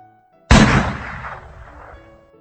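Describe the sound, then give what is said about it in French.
A single pistol shot fired beside a guillotine scaffold amid a crowd cracks out sharply and loudly, then trails off in a long, slowly fading rumble. “Le bruit d'un coup de pistolet lui fit relever la tête.”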